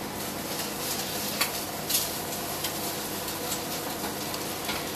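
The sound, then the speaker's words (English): Eggs fry sunny side up in a pan as a burger topping, giving a steady, even sizzle with a few faint clinks of a utensil against the pan and no voices. “It looks like he's over here making his eggs now.”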